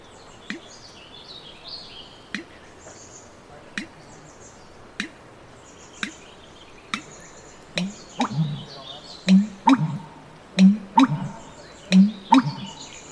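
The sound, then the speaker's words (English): An American bittern gives its call, a run of low, hollow gulping booms that grow louder and come closer together in the second half. Sharp faint clicks are scattered throughout. “Here's the call of the American bittern.”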